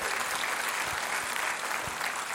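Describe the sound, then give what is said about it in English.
Steady applause from an audience at a worship gathering, many hands clapping in a dense, even wash that stays loud throughout. “Could you give God a round of applause just for what he's doing?”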